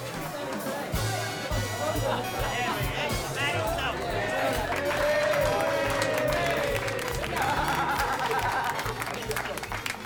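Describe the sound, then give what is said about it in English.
Gang members applauding a man as he enters a room in a film scene, a group clapping and cheering with a babble of voices and talk running over it, the clapping holding for several seconds. “The gang members applaud him. He applauds back and raises his hands.”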